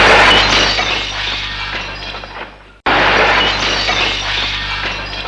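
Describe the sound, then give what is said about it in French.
A drinking glass drops and shatters on the ground in a sharp burst of breaking glass and scattering shards that fades away. A second loud crash of glass quickly follows. “Il se souvient plus qu'il a un verre à la main. Il le renverse et tombe en terre.”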